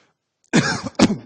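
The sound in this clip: Two sharp coughs after swallowing wrong, a loud harsh burst followed half a second later by a second, slightly shorter one, each rough and breathy with a throaty edge.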